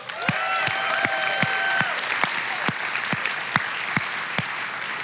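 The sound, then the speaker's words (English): Applause from a church audience welcoming guests from Pine Cove camp: a dense, steady wash of clapping with sharp individual claps standing out at a fairly even pace, sustained and loud throughout. “Give it up for our Pine Cove friends over here.”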